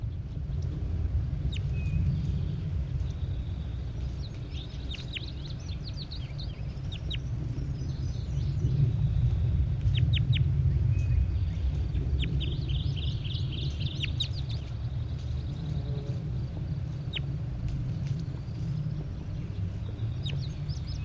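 Calls of a large bird in a field recording, several bursts of quick clucking notes that come and go over a steady low background rumble.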